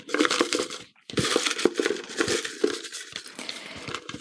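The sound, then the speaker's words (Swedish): Paper name slips being stirred by hand inside a trophy cup, making continuous crinkling and rustling with occasional light clinks against the cup, fairly quiet, with a brief pause near the start. “Så, då blandar ner alla inskickade namn i pokalen.”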